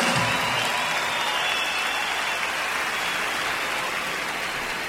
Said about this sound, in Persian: به افتخارشون یه دست خیلی خیلی محکم تقاضا میکنم.